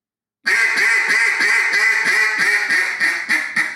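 A handmade duck call blown to imitate a duck gives a loud, steady run of many raspy quacks in a quick, even rhythm, with no talk.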